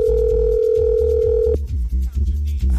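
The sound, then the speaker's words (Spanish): A telephone ringback tone plays while a call is placed: a steady, unbroken mid-pitched tone lasts about a second and a half, then cuts off abruptly, leaving only low background sounds. “Está sonando, vamos a ver. ¿Qué pasa, Farsa? Dímelo, Farsa. ¿Quiere contestar o no quiere contestar?”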